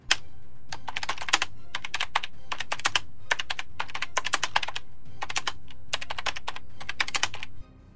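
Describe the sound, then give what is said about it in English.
Typing several lines of code on a computer keyboard attached to a server stack, with rapid clusters of crisp keystrokes broken by short pauses, steady and continuous for several seconds before stopping. “Arihant to input several lines of code into one of the keyboards attached to the server stack”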